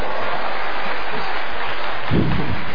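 Audience applause at a live event as the crowd is asked to honour a guest's wife: a dense, steady patter of clapping that fills the whole clip, with a low rumble swelling near the end.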